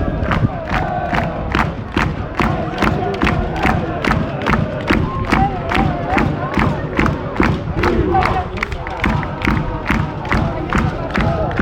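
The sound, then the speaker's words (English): Football ultras roar into a rhythmic chant after a team's first shot on target at a Rio Ave versus Gil Vicente match, voices pounding along to a loud, steady drumbeat that keeps a fast regular pulse throughout. “And it's got the ultras going, there you go.”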